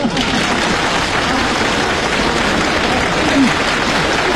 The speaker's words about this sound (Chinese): 先别鼓掌了，别鼓掌